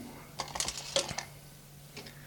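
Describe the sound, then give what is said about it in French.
Sharp metallic clinks and a crack come as the hammer of an impact testing machine falls and breaks a small wooden sample. A few brief, clattering hits cluster early on, then a faint clink follows near the end. “Le matelas descend. Oui, donc là, on a le marteau qui descend et qui vient taper sur l'échantillon. Il casse l'échantillon.”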